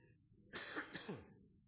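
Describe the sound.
A man clearing his throat with something stuck in it: a few rough, low throat-clearing coughs in quick succession, faint and alone.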